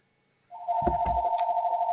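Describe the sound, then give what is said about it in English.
A telephone rings in a house, an electronic tone that starts after a moment of silence and then holds steady with a pulsing warble, with a few low thuds near the start. “sorry for the ringing in the background, but I'm in the house today and there's nobody else here to answer the phone.”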